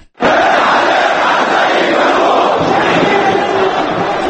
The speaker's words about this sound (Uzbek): Ayni paytda Misrning Tahrir maydonida 100 minglab odam norozilik tadbirlari o'tkazib, muborak ket deya hayqirmoqda.